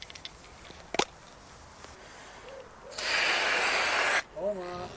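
Freeze spray hisses onto an Asian hornet queen in one steady, loud burst lasting just over a second, standing out against a quiet background.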